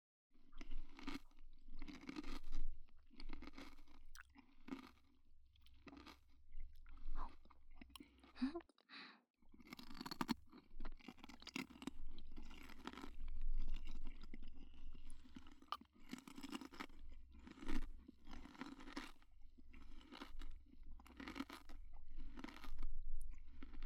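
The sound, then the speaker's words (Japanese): Crunchy chewing of apple pieces soaked in salt water: many crisp, wet bites and chews in an irregular rhythm, with a short pause partway through. “中はシャクシャクだね。塩水につけてたから少しだけ甘じょっぱくなってるかな。お弁当に入ってるリンゴみたいな味がしてちょっと懐かしいかも。”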